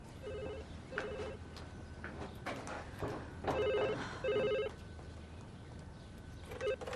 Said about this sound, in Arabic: بعد إذنك ممكن تردي على التليفون؟